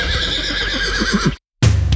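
A horse neighs in a long, loud, quavering whinny for a trotting-race advert, then after a short silence a low rumbling burst follows.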